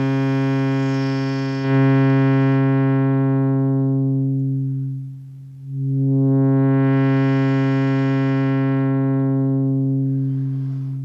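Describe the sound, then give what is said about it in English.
A sustained synthesizer tone has its low-pass filter closed: the higher overtones fade away first until the sound turns dull and nearly muted, then the filter reopens and the tone brightens again. “So I'll close the filter, and we'll cut out first the higher overtones and then all of them.”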